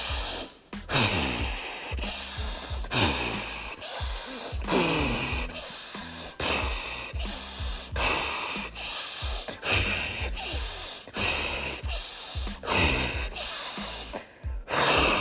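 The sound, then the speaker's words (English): Forceful breaths pushed out through the mouth, a steady rhythmic series of loud, rough puffs of air repeating roughly every second. “breathing out your mouth. It's like spitting on things when you breathe out of your mouth. Like you have to use power behind that force. You do that 10 times.”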